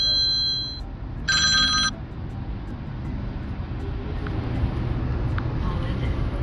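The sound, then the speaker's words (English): An electronic telephone rings in two short, bright, warbling bursts, the second following a brief pause. Afterward only a low, steady background rumble remains. “phone ringing”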